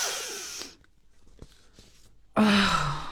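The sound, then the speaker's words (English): A sharp nasal inhale through a straw held to one nostril, the other pressed shut, gives a hissing rush of air. A quiet pause follows, then a second breathy burst with a low voiced tone. “Straw by the one nostril and a finger on the other. Bend and inhale.”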